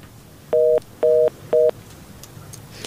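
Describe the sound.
Three telephone keypad tones sound while dialing to call a listener: evenly spaced, steady dual-pitch beeps, followed by a low, quiet background.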